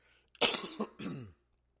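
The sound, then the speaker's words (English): Two harsh, rough coughs in quick succession from an adult with a cough that followed a flu shot, loud into a microphone, followed by silence. “I'm so sorry I'm coughing in this mic.”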